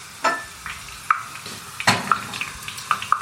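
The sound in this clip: Leek strips deep-frying in oil at 120 degrees crackle steadily, with many irregular sharp taps and pops scattered through the sizzle.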